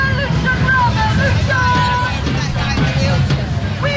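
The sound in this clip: Crowd ambience at a street protest march in London: a dense, steady murmur of many voices over a low traffic-like rumble, continuous and loud throughout.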